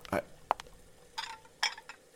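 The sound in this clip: Pots, dishes and cutlery clink and clatter quietly while chops and string beans cook for Christmas dinner, a few sharp, scattered metallic knocks and chinks with short gaps between them.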